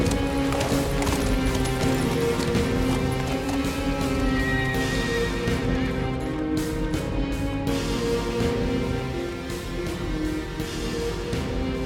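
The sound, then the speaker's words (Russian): Galloping horses carrying about twenty mercenaries in a film scene: steady, heavy clip-clop of hooves with repeated neighs and whinnies, loud and continuous from start to finish. “В это время прибежали наемники на лошадях. Около 20 бойцов.”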